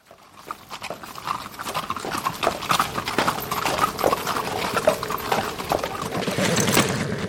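Horse hooves clip-clop along a frost-covered trail at the edge of a forest, a steady run of many sharp hoofbeats that grows gradually louder.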